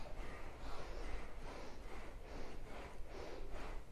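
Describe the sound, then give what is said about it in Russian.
Forceful rhythmic bellows breathing, bhastrika in a yoga kriya, with many quick, even bursts of air pumped in and out in a steady pulsing beat. “мы сейчас насквозь будем себя продувать. Поехали, бхастрика,”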